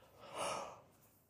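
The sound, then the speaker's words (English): A single human yawn, a faint breathy exhalation that swells to a peak and then tapers off, heard alone. “That was a yawn, I'm sorry.”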